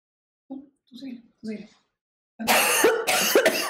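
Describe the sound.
Coughing from dust in the throat during home renovation: a few soft, short vocal sounds, then loud, harsh bursts of coughing.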